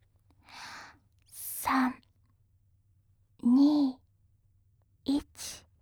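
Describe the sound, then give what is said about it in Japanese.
Slow exhalations during a guided relaxation exercise: a few soft, airy breaths out, some voiced as low sighs, each separated by silence. “一緒に息を吐いていきましょう。”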